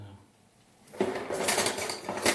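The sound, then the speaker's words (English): Scraping and stirring in a bowl as liquid is worked into a thick dough of scalded flour. A quiet second is followed by steady, rhythmic rasping with louder pulses as the mixing goes on. “so just stir it down into the scalded flour, which is kind of not so liquid, and mix it with the”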